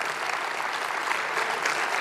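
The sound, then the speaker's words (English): An audience applauds as volunteers in t-shirts come on stage: a steady, dense wash of many hands clapping without a break, loud and even throughout. “And you please applaud and say thank you.”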